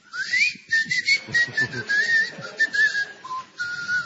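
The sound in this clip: A shrill whistle from a whistling firework-style corkscrew rises at first, then holds a wavering high pitch in short pulses before dropping near the end, with low voices murmuring beneath.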